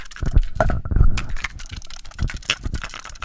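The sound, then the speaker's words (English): Cassette tapes shaken by hand make a rattling plastic clatter of irregular clicks and knocks, dense and uneven, with no one talking. “Today's episode is brought to you by cassette tapes. This is what they sound like.”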